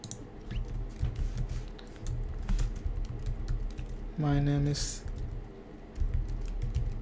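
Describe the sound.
Many rapid keystrokes on a computer keyboard while HTML code is typed into an editor, an uneven patter of light clicks that goes on throughout.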